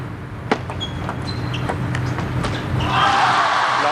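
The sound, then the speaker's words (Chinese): A table tennis serve at a professional match: one sharp click of ball on paddle, then fainter taps over steady crowd murmur that swells louder near the end, with no talk. “雨果先来发球”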